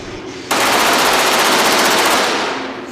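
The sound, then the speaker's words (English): A gun firing fully automatic bursts into a sustained stream of rapid, evenly spaced shots after a half-second lull, staying loud for about two seconds before fading out. “If you pull a little bit, one shot. If you pull all the way, it's full auto.”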